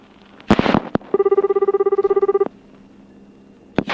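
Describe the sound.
A telephone rings in one burst of rapid, even trilling pulses lasting about a second and a half. A few sharp clicks come just before it, and another click follows later.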